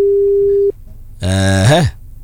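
An outgoing telephone call gives a single steady mid-pitched ringback tone lasting under a second, followed after a short pause by a brief buzzy harmonic sound that bends downward at its end.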